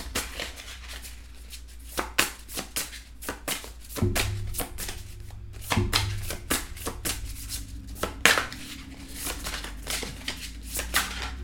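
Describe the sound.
Tarot cards shuffled and drawn from a deck, many soft, crisp papery flicks and taps in irregular bursts, fairly faint over a low, steady hum.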